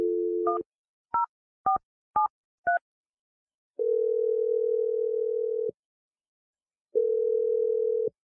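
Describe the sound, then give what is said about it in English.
A steady telephone dial tone breaks into a quick run of short touch-tone dialing beeps. Two long, even ringing tones follow, separated by a stretch of silence. “I'm going to dial the number right now. Here we go.”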